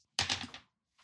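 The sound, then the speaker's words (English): Dice rolled during a tabletop role-playing game give one short, quiet rattling clatter lasting about half a second, followed by a faint tap. “You can't do jack all, but you can roll some dice of fate.”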